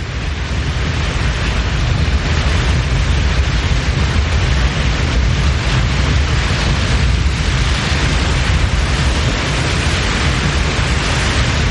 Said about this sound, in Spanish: Él corre y se lanza por la cascada. Cae por ella y desaparece en el río.